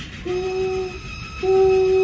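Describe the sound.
A small steam train sounds two steady whistle blasts over a low rumbling background, the second louder and held longer than the first.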